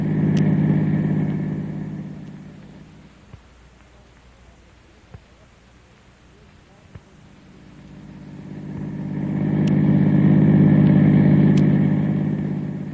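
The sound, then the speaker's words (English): A car drives off with a low engine rumble that is loud at first, eases to a quieter stretch, then swells loud again, with a few faint sharp clicks in between. “Drive on, Kolo. We're going back to school.”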